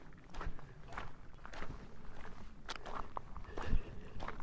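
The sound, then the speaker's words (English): Footsteps of someone walking: a faint, steady series of soft thuds and scuffs at a regular, unhurried pace, with no talking. “Do have to walk a little slower though.”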